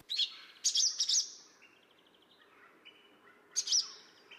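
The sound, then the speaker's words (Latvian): A swallow gives its alarm call: a few sharp, high chirps, fairly faint, with softer twittering between them. “Pašās beigās ir bezdelīgs uztraukums sauciens – cilī,”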